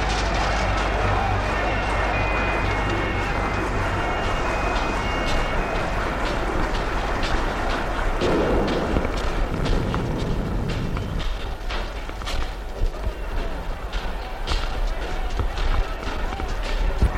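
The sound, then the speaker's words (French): Running footsteps pound up a staircase as someone flees up the floors of a building. Many quick, irregular thuds come through a dense, noisy background and grow sharper toward the end. “Vincent croit être poursuivi, vite monte les étages.”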